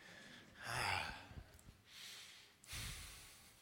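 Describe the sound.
Slow, airy breathing during a guided breathing session: a few long, soft breaths, quiet and unhurried, with no talk.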